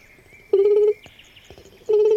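A person calls to lure a wood pigeon chick, imitating its call with two steady, hollow, cooing hoots of even low pitch, each under half a second long, with faint clicks between them.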